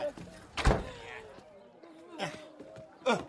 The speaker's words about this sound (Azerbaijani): Nənə, aç o qapını. Aç qapını, nənə. Qapını niyə bağladın üzümə?